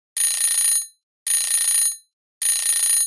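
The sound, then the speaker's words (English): A bread machine's alarm signals that a loaf is done with three identical high-pitched electronic beeps. Each beep lasts about half a second and is separated by brief silences, with no voices present. “The incessant noise invaded my sleep and woke me with a start. Racing to the kitchen, I was annoyed to see it was just the bread machine alerting me that its mission was complete.”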